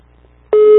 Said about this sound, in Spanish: Ahí está la primera timbrada.